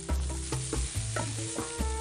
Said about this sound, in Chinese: 平铺在炉子上，小火慢烤，木签固定一端，木棒按压，使乳扇均匀受热，逐渐软化。